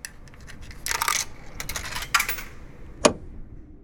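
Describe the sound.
Coins drop into a vending machine, giving a few faint, bright metallic clinks and jingles in quick bursts, then one sharp final clink near the end.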